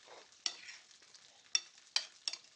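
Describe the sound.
Mushrooms and pine nuts frying in a pan with oil and butter, a quiet, soft sizzle broken by a few sharp scraping stirs as they are moved around.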